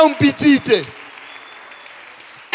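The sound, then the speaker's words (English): Congregation applause at a church service: a voice speaks briefly, then a soft, steady wash of many hands clapping continues evenly to the end. “Clap hands for yourself.”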